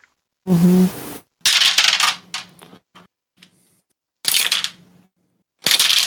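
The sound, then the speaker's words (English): Dice rolled on a table for hit dice in a tabletop role-playing game: a few separate bursts of clattering and rattling, each short and fairly loud, with quiet gaps between them and no talk. “so go ahead and everybody roll their hit dice”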